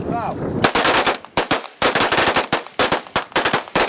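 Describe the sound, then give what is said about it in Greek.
Automatic gunfire from about fifteen rebels emptying their weapons in a salute to victims of fascism: loud, rapid bursts of shots, many in quick succession with brief gaps, following a short, quieter opening. “Περίπου 15 αντάρτες αδειάζουν μπροστά μας τα όπλα τους σε ένα χαιρετισμό για τα θύματα του φασισμού.”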